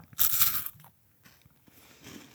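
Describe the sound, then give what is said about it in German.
Someone bites into crunchy Neapolitan wafers from Kovo: one loud, crisp crunch, followed by faint chewing sounds. “Ich muss aber echt sagen, da lobe ich mir doch mhm. die Neapolitaner-Waffeln von Kovo.”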